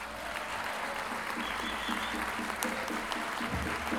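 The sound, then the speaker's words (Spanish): Audience applause greets a folk singer and improvising poet at a cultural event in Lo Barnechea, a loud sustained wash of clapping with some rhythmic unison clapping and crowd noise throughout. “Recibamos con un gran aplauso a don Jorge Yáñez.”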